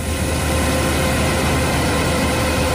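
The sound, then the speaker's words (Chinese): A combine harvester works at full power in a golden corn field in Datong, Shanxi, with transport vehicles following behind. A loud, steady machinery roar with a deep low rumble holds unbroken throughout. “走进山西大同市云冈区西韩岭乡泰善村，连片玉米田里满目金黄，收割机正开足马力作业，转运车辆紧随其后”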